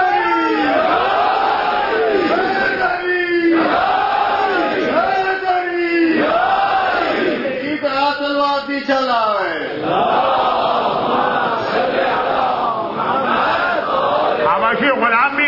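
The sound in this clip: A crowd chants religious slogans in loud, rhythmic unison, each phrase rising and falling in a repeating call that swells in regular waves, and the pattern shifts midway into a rougher, more ragged shout before the chanting resumes.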